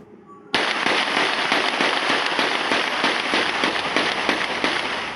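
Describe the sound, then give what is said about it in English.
Gunshots fired into a home in Durham, captured on surveillance video. After a brief quiet start, a rapid string of many loud, sharp cracks arrives, packed closely together and sustained at a steady, dense pace until the end. “Did you keep count of that? 14 shots fired.”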